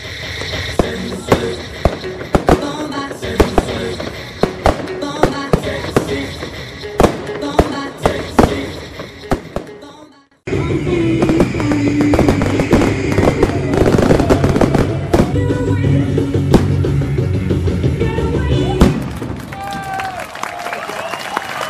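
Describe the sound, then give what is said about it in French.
A fireworks display pops and bangs in many sharp, irregular reports. After a brief drop in level, a dense, continuous wash of crackling and crowd noise follows. “Alors on va se rapprocher maintenant que le spectacle est terminé, spectacle de feu d'artifice, on l'a entendu”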